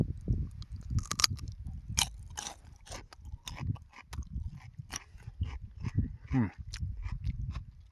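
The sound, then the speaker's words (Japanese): Crisp crunching as someone bites into a whole raw cucumber during a mountain hike in Japan's Southern Alps: a series of sharp, irregular crunches mixed with wet chewing, fairly faint over a low rumbling background. “行動食で丸ごときゅうり2本持ってきたんですよで今日1本食おうかなと思ってここでちょっとかじってみます”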